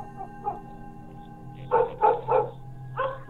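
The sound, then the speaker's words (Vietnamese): Dogs barking in a village: a couple of faint yaps, then a quick run of three louder barks and one more bark after a short pause, over a steady low hum. “Mấy con chó ở trong làng dường như cảm thấy điều gì đó, cứ chõ mõm ra ngoài đằng ấy mà cắn lên ông ổng đến sót cả ruột.”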